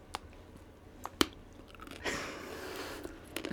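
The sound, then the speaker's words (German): A sweet, crunchy hemp seed snack is chewed. A few sharp, crisp crunches lead into softer, sustained munching, all faint and without talk. “Ja, ich habe hier den passenden Nachtisch zu dem ganzen Hanfsortiment. Und zwar der süße Knabberhanf. Da sind so kleine Hanfsamen drin, sehen erstmal ein bisschen unspektakulär aus.”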